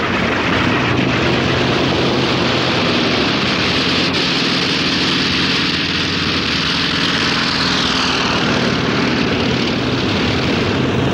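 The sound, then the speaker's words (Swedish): Medium bomber planes take off from a US aircraft carrier in 1942, their propeller engines making a loud, steady, droning roar that fills the whole clip without a break. “Den 18 april 1942 startade 16 medeltunga bombplan under befäl av överstelöjtnant James Doolittle från det amerikanska hangarfartyget Hornet för historiens första flyganfall mot Japan.”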